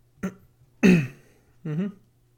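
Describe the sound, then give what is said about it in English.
Throat clearing to bring up phlegm: three rough, guttural bursts, the second the loudest and fullest, the last a drawn-out rasp, with no talk around them. “Got some phlegm in my throat. That phlegm. That old phlegm.”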